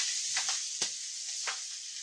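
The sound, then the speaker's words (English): Peppers searing in hot oil in a pan make a soft, steady sizzling hiss, with a few sharper crackles breaking through. No voices are heard. “What I don't want to do is start with something that's going to be saucy so I can't sear these peppers.”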